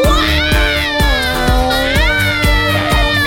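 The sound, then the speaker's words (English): A voice imitates a loud baby's wail for a cyber baby in a song, a sustained high, wavering cry over a steady, thumping musical beat. “A big old wail, a big old cry, when the cyber baby let it out, all wires started to fry.”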